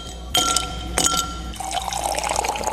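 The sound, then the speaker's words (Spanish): Ice drops into a glass with two sharp, bright clinks about half a second apart, followed by a steady rushing, fizzing sound of liquid filling the glass. “Pero es momento de echarnos hielito ahí al vaso.”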